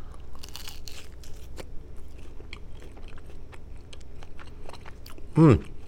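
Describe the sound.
Crisp crunching and chewing as someone bites into lumpia dipped in garlic chili vinegar. Faint, scattered crunches run throughout, followed near the end by a short hummed murmur.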